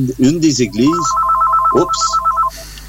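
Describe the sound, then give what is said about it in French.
A telephone rings with a rapid, bright electronic trill that runs steadily for a little over a second. A voice talks over its start, and more speech follows as the ringing stops. “C'est le téléphone qui sonne, je m'excuse.”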